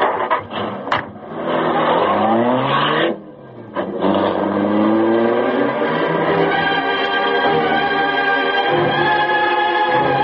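Car engine revving and driving off, a loud steady mid-pitched drone that dips briefly near the middle, then surges back with harmonics climbing as it accelerates away and holds a sustained roar.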